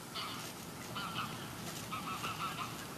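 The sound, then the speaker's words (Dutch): Geese honk a few times, faint nasal calls in two short bursts over a steady hiss of outdoor background noise during a birdwatching outing. “Kijk, die ganzen, die storen zich een beetje aan ons.”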